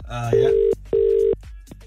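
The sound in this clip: Ringback tone of an outgoing telephone call: two steady, low-pitched tones of equal length separated by a brief pause, following a short voice at the start.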